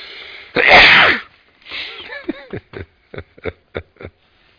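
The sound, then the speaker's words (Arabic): A single loud, explosive sneeze, followed by brief breathy vocal sounds and a few short, sharp clicks. “الحمد لله كل اللي قالوا لي يرحمكم الله يهديكم الله ويصلح بالكم”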